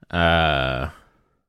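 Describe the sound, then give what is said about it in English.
A single long voiced yawn of about a second, a steady harmonic tone that trails off into a breathy exhale. “I apologize for the yawn, everybody.”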